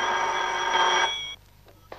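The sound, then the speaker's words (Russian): A telephone rings in a richly furnished apartment: one loud, bright electric ring lasting just over a second, which cuts off abruptly and is followed by quiet and a faint brief sound. “Жена Лохновского подходит к телефону.”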